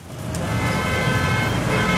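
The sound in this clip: Car horns honk in a traffic jam, sustained horn tones held over a loud, continuous rumble of idling and slowly moving traffic.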